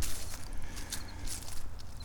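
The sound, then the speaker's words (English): Footsteps walking downhill: a steady series of crunching steps, each with a soft scuffing tail, over continuous low outdoor noise. “Okay, walking downhill, this seems to be a little bit easier.”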